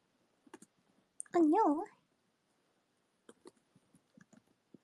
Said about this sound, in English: I'm gonna type the thing to you guys in a bit.